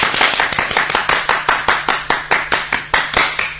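Rhythmic hand clapping honors a participant at a meeting: many sharp, evenly spaced claps in a quick steady beat, crisp and loud, with no voices over them.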